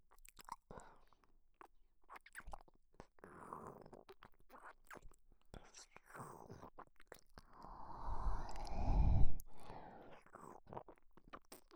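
Wet chewing while eating, with many irregular smacking and crunching mouth sounds that swell louder toward the end, mixed with soft whispering.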